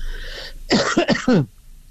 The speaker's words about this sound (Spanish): Perdone con la tos, pero estoy un poco resfriado.